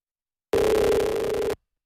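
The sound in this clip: Telephone line tone on a call being placed abroad: one steady, buzzy beep lasting about a second, starting and stopping abruptly, with silence on either side.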